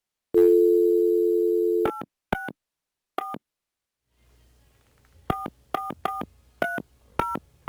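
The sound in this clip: A telephone number being dialed: a long, steady dial tone first, then a series of short touch-tone keypad beeps spaced irregularly, with no talking.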